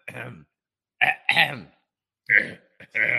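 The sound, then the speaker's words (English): A voice imitates a man clearing his throat: several gruff, rasping vocal bursts, some separated by short pauses, sounding throaty and exaggerated. “Rand's like clearing his throat”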